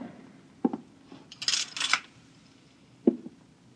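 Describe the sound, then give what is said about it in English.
A curtain being drawn shut: a faint click, a brief scraping swish of rings sliding along a rail in two quick pulls, then another soft click, with no voices. “Just draw the curtain and then come here and sit down.”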